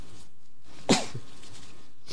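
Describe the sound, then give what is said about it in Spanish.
A single sharp sneeze from a speaker suffering from an allergy bursts out once in otherwise quiet surroundings, brief and loud against the near silence. “Perdonen ustedes, pero es que se ve que tengo alergia y llevo una mañana terrorífica estornudando, y por eso puede que haya más de una interrupción.”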